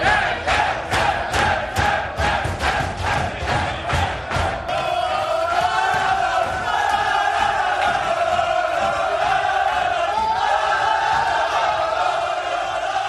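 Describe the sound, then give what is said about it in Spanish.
Getafe players celebrate loudly in the dressing room after a 3-0 win over Sevilla. Rhythmic, pulsing group chants give way to continuous raucous cheering and singing that stays loud throughout. “Oigan, esta es la fiesta que ha habido en el vestuario del Sevilla del Getafe.”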